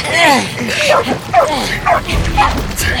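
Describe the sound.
A dog yips, whimpers and barks in short, high, repeated sounds, mixed with people talking at a loud, busy level.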